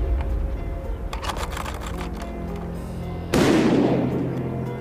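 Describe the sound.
A single shotgun blast at a clay pigeon shoot, a sudden loud crack with a long, fading tail. A series of light mechanical clicks comes before it.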